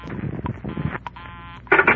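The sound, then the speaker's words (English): Telephone dialing the last digit of a number: a short run of electronic dial tones and beeps at moderate loudness, ending in a brighter burst. “I held off dialing the last number on my phone until she got an answer. And then I let it go.”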